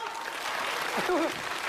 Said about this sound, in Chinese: 咱们试一试掌声行吗？来，咱们掌声响一下好吗？